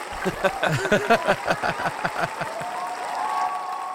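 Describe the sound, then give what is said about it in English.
An applause sound effect: many hands clapping in a dense, even patter that thins out toward the end. “we're going to uh, take a moment here and celebrate you guys. Here, have you have yourself a cheer on the podcast. There you go.”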